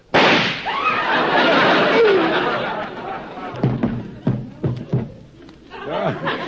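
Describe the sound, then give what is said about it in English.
A real gun fires a loud gunshot at the start that booms and rings on for a few seconds, then a crowd stirs and chatters. “Hoppy must have sold me a real gun.”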